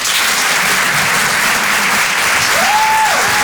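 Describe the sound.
Loud, steady audience applause for a comedy performer at a live show, with many hands clapping in an even, unbroken roar.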